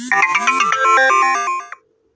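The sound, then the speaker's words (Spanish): A phone's incoming-message notification tone: a bright electronic jingle of quick stepping notes lasting about a second and a half, loud and alone before it cuts off. “Perdón, me están entrando mensajes, lo lamento y como estoy grabando, no lo puedo quitar.”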